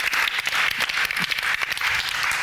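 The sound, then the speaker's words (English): A live audience applauds a contestant, a dense, steady wash of many hands clapping. It stays loud and even from start to finish, with no voices over it. “Give her a big round of applause.”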